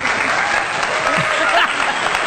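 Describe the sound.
Applause from a crowd, a steady dense patter of many hands clapping at even loudness throughout, with faint voices mixed into the clapping.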